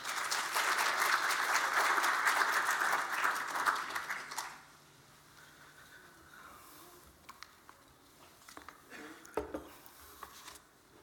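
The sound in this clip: Audience applause welcoming a speaker at a talk: steady clapping for about four seconds, then it dies away, leaving faint scattered small sounds.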